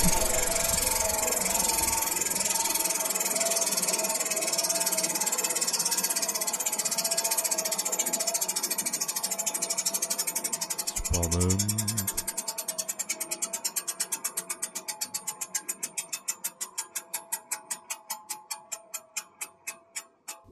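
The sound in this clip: A spinning wheel ticks rapidly at first, then the clicks gradually slow and spread apart into distinct, widely spaced ticks as it comes to rest.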